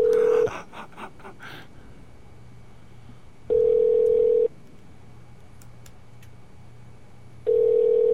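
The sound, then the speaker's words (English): A telephone call being placed to a news tip line: a quick burst of short tones at the start, then three long, steady ringback tones separated by silent gaps, loud and alone. “Live on the air, we're calling TMZ.”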